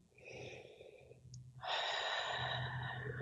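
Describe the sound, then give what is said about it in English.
Someone draws a deep breath in during a guided relaxation exercise. A soft, airy breath noise at low volume swells to a fuller, steady rush about halfway through and holds to the end, with no talk. “So let's all relax and just let your shoulders drop and take a deep”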